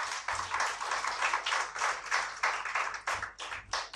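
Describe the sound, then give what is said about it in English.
Audience applause at a report launch event: dense, steady clapping with sharper individual claps standing out, continuing throughout at moderate volume. “So I would like to big applause for Garuda team.”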